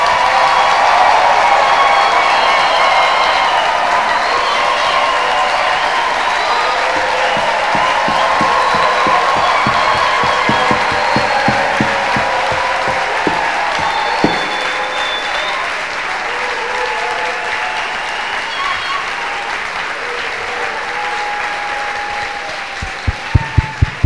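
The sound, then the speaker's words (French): A church audience applauds and cheers loudly for a long, sustained stretch, with whoops and voices blended into the dense clapping. Toward the end, the clapping thins to a few sharper, separate claps. “Frère, acclamons maintenant le Seigneur.”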